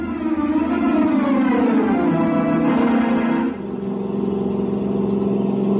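A British sports car's engine revs hard as it accelerates, its pitch climbing steadily before dropping at a gear change and then holding a strong, even drone. No talk is heard.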